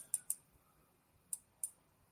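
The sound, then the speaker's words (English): Four faint, sharp clicks from a computer mouse clicking through items: two quick clicks close together, a pause, then two more slightly spaced apart. “As I click through these.”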